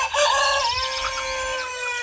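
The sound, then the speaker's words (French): Hens and roosters cluck and crow in a dense, continuous chorus of overlapping, high-pitched calls that stays loud throughout. “voici les poules et les coqs”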